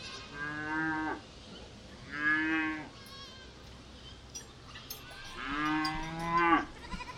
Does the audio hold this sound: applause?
no